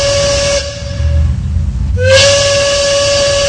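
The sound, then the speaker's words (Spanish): Two loud, piercing blasts of a train's steam whistle, rich in bright harmonics, separated by a lower rumbling hiss of steam. The second blast bends slightly upward in pitch as it starts and then holds steady to the end. “estamos listos para irnos a la última estación del tren de la tarde.”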